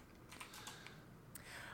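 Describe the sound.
Typing a web search on a computer keyboard: a quick, irregular run of light key clicks, faint over a soft steady hiss.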